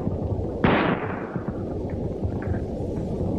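Pistol gunshot: a single sharp crack with a short fading tail, set against continuous background noise.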